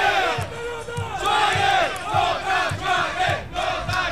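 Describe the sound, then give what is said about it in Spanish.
Football supporters of the Lota club in Chile chant in unison at a match, a loud, rhythmic crowd chant that swells and recedes, backed by regular low beats throughout. “Se emociona el público cuando decimos esta reseña y comienzan a salir los Lota Lota y las bubucelas.”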